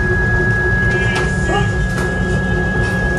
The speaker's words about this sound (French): Ça s'appelle comment cette machine ? C'est une fraiseuse à commande numérique. Donc c'est à la fois sur la machine et par ordinateur.